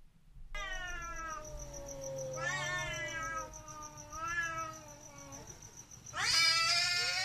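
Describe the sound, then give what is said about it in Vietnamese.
A cat yowls and caterwauls late at night as if fighting, giving several long, wavering, strained cries in a steady run, ending in a louder, harsher burst of screeching. “có tiếng con mèo nó kêu lên. Nhưng lần này không phải là tiếng con mèo kêu bình thường, mà tựa hồ như con mèo nó đang gào đánh nhau với ai vậy.”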